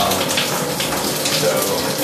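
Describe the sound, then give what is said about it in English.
Shower water runs in a steady, unbroken hiss of spray with no pauses, and no voices are heard. “I don't know if it's gonna pick it up, but I'm going to shower.”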